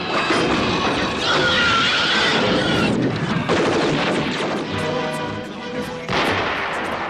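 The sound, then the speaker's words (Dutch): A Scorpion jet fighter of the Air Defense Command fires the first air-to-air nuclear rocket. It sounds as a continuous, loud, rough roar with heavy blasts and rumbling that hardly let up throughout. “Scorpion jet fighter of the Air Defense Command takes to the air with an historic mission. It carries the first air-to-air nuclear rocket ever to be fired.”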